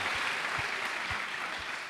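Faint applause from a church audience acclaiming the Lord during a service, a soft, even wash of clapping with a few low thumps underneath.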